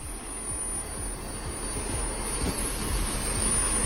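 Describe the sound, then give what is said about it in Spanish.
A jetpack's turbine engines, mounted on the hands and backpack, start up and gain power: a steady high whine over a rough roar with regular low pulsing, growing slightly louder. “Ahí se ve que está prendiendo, está como tomando potencia el motor.”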